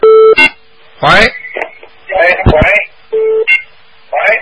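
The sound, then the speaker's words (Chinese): Telephone tones on a call-in line: a steady, low, pure beep sounds in short repeated bursts as a call is being put through, interleaved with loud, garbled voice-like sounds, over a faint continuous hum. “赶快那个电话能不能打进来？喂，哎，这老叫线真的是要命。”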